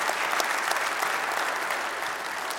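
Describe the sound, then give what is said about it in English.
Audience applause welcoming a speaker to the stage, a dense, steady patter of many clapping hands that holds at an even level throughout with no voices over it. “Would you put your hands together and give a warm Redeemer welcome to Keith Wheeler?”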